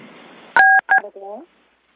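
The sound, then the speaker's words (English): Telephone keypad dialing tones: a longer tone is followed by a shorter one, both loud and clean, after a low hiss. A brief voiced sound follows them, then silence. “Would somebody stop playing with the phone?”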